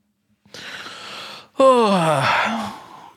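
A yawn: a breathy, drawn-in breath, a brief pause, then a loud voiced exhale that slides steadily downward in pitch before fading out.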